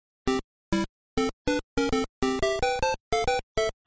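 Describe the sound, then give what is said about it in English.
The NES Super Mario Bros. theme on two square-wave channels: a quick, bouncy run of many staccato, reedy bleeps with brief silences between phrases. “And then if you add in the second square channel, it sounds something like this.”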